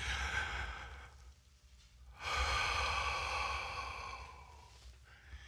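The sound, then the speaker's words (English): A deep breath is drawn in, then a long, slow exhale follows after a short pause. Both are soft, airy breaths with no talking. “Stop what you're doing and just take one really big, deep breath and then let it out real slow. Let's do it together.”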